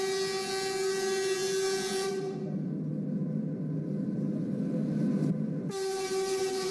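A slow passenger train pulls into a station in the Liangshan region. Its steady horn sounds for about two seconds, gives way to a low rolling rumble, then sounds again near the end.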